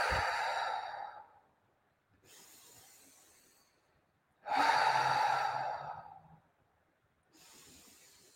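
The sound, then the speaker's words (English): Deep breaths drawn in through the nose and let out through the mouth during a guided meditation: two slow, full cycles of airy, hissing breath, with louder and softer passages alternating. “Take three deep breaths, in through the nose, out through the mouth.”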